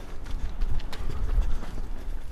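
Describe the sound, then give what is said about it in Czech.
Footsteps of a jogger setting off on a run along a route with a small hill: a quick, uneven patter of soft thuds at a moderate level that continues throughout, with no voices. “No prostě start. Tak běžíme.”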